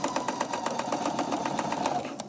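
A sewing machine stitches fabric at a corner, where the needle stays in the cloth and the piece is turned. It gives a fast, steady run of many mechanical stitch pulses at an even rhythm, with no voices.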